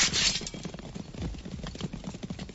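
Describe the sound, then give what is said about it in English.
Hooves of horsemen riding hard and overtaking, a rapid, continuous drumming of hoofbeats with an uneven galloping rhythm, fairly loud throughout. “there are horsemen behind us. They are overtaking us, riding hard.”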